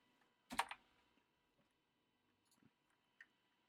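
Typing on a computer keyboard: a quick burst of loud clicks near the start, then a few faint, scattered key taps with quiet gaps between them and no talking.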